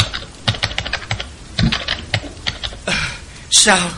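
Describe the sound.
Fingers typing on a computer keyboard, stiff with fear: rapid, uneven clacking keystrokes in quick bursts, with a louder cluster of clicks near the end.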